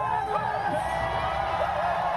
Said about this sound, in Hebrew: בהחלט, וככה הוא התקבל אתמול במחיות כפיים סוערות של הקהל שהיה שם.